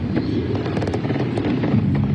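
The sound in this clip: Gunfire erupts during a shooting at a football team's Super Bowl victory rally, with a few sharp cracks standing out against a dense, continuous wash of crowd commotion and noise.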